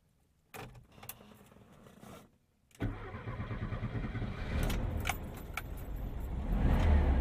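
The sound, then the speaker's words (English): Keys jangle, then after a short pause a restored classic Volkswagen engine is started with its key. It catches at once and settles into a steady idle that grows slightly louder. “Let's buckle up and take this iconic restored classic for a drive. We've got our great little Volkswagen key. Let's start her up.”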